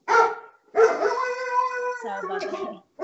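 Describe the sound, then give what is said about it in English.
A dog gives a short bark, then a drawn-out, wavering howl-like whine that dips lower in pitch toward the end, loud and clear on its own. “That's a dog.”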